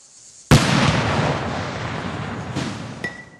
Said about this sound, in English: This sound of the bomb when it was detonated gives you an idea of its power.